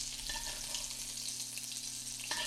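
A steak sizzles in a pan of garlic butter while being basted, giving a steady, fairly quiet hiss and crackle with no break and no talking.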